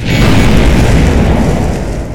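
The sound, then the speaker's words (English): A massive sci-fi blast: a huge plasma bolt punches through a starship's defensive force fields as a loud, dense, roaring boom that holds steady throughout and eases slightly at the very end. “A plasma bolt of monstrous proportions punches through the starship's defensive force fields like they don't exist”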